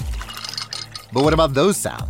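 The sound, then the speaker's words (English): Water from a Samsung Bespoke refrigerator's internal dispenser pouring into its built-in pitcher with flavor infuser, a short soft trickling rush, followed by a voice speaking. “Those are the sounds of the Samsung Bespoke Refrigerator's beverage sensor with internal water dispenser and built-in pitcher with flavor infuser for crisp, refreshing water.”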